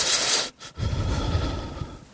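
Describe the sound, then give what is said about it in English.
A person breathes in a deliberately creepy way, with a loud, hissy breath, a brief pause, then a longer raspy breath over a low rumble. “Listen to this. This is the creepy way to breathe.”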